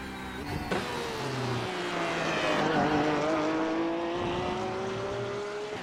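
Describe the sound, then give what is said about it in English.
Race car driving on track, its engine a steady, loud drone that dips slightly in pitch and then holds for several seconds. “It's so good as a race car, but if you start to, you're not there mentally, then it will eat you alive. I mean, just look at her go.”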